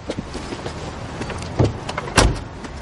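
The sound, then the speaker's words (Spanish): A car on a cobbled street comes to a stop and a man gets out. A low, steady rumble runs throughout, broken by two sharp, louder door-like thuds near the end. “Un coche circula por una calle empedrada. Se detiene. Bloomfield se apea del coche.”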